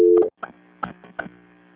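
A telephone busy tone sounds after a call has been hung up: a brief steady tone, then a few short repeated beeps at a regular pace.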